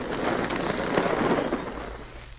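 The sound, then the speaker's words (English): A dynamite blast tears through a rock pile at a gold diggings in the Yukon, a dense, crackling roar that swells and then eases slightly toward the end. “I'm going to blast through here, and that'll be...”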